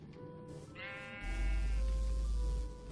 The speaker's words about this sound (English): Is the sheep in the middle just not... Stupid sheep.